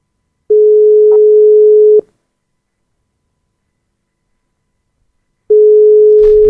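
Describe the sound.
Ringback tone of a phone ringing unanswered on a live call: two loud, steady, long tones at one pitch, each about one and a half seconds, separated by a few seconds of silence.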